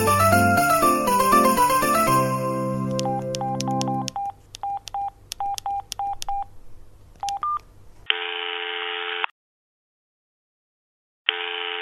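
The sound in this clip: Telephone keypad tones as a number is dialed before a call, a series of short clipped beeps, followed by a long steady ringing tone, a silent gap, and the ring starting again.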